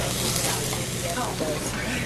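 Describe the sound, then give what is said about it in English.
Pancakes made from stone-ground whole-grain batter sizzling on a restaurant griddle while being flipped, a dense, steady hiss at moderate level with no distinct individual events standing out. “I am flipping the pancakes for table five. It's their first set.”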